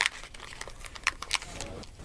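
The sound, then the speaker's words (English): Crunching and chewing of a paper book being eaten: a few sharp, crackly bursts of paper crinkling break through a low, steady background. “I am a man of my word. So what I'm going to do is just sit here and eat my book while you guys carry on.”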